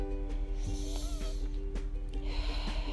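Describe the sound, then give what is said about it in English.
A deep breath drawn in during a relaxation exercise, heard as a steady airy rush of inhaled air that brightens toward the end over a low background hum. “Learn to relax, learn to enjoy whatever stage of life you are in. Take a deep breath”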